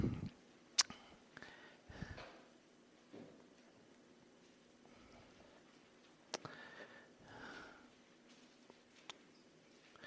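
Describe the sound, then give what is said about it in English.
Bible pages being turned during a church scripture reading, heard as faint papery rustles and soft swishes scattered in a few brief clusters across an otherwise quiet stretch. “I love hearing the pages of the Bible.”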